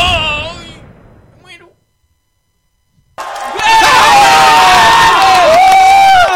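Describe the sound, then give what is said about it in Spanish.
Crowd cheering at a basketball game breaks out loud and sustained after a shouted voice and a short silence, a dense roar with high, wavering cries running through it to the end. “Parece que al público le ha encantado la nueva idea para la puntual de King Jong-un”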